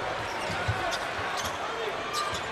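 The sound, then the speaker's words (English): A basketball is dribbled hard on the court during a professional game, a string of low, dull bounces partly masked by steady crowd noise. “Aaron Gordon just pounding the dribble up top, breaks the rhythm.”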